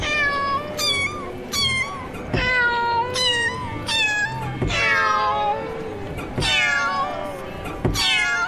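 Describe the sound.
Cats meowing, presented as a cat piano: many loud, overlapping meows with bright harmonic cries, several sliding downward, arriving in an irregular run with no talking.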